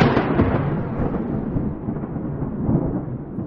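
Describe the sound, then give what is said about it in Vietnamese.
A loud thunderclap in a heavy downpour opens with a broad crack and rolls on as a low, rumbling boom whose brightness fades steadily over a few seconds. “Thanh Linh sấm chớp nổ đình tài nhức ốc.”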